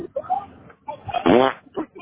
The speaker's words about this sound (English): Can you fart? Yes, I can fart. Go ahead and fart on the phone.